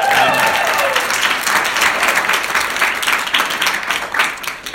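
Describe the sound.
An evening crowd applauds to welcome a speaker's whānau: warm, continuous clapping from many people, loud from the start, thinning slightly and fading toward the end.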